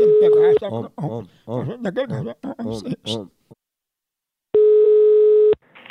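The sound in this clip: A telephone call rings out. After a voice speaks briefly, one steady ringback tone sounds for about a second, then a second tone begins at the very end.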